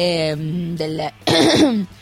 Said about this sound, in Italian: scusatemi, ma ho un po' di tosse